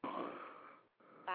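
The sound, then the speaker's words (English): Heavy, wheezy breathing comes down a telephone line, thin and muffled: one long rasping breath, a brief gap, then shorter breaths. “What the fuck is breathing in the phone like that?”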